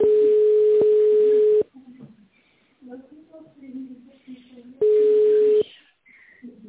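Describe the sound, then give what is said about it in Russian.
Telephone ringback tone as a call is connected: two steady, mid-pitched tone bursts, the first about one and a half seconds long and the second shorter, separated by a gap of faint, low sounds. “Пожалуйста, наберите внутренний номер сотрудника и подождитесь ответа оператора. Спасибо. Соединяю.”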